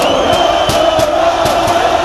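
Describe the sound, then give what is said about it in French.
Paris Saint-Germain supporters chanting outside the Parc des Princes: a loud, continuous mass of voices with regular rhythmic accents running through it. “À peine sortis du Parc des Princes, les supporters du Paris Saint-Germain donnent de la voix.”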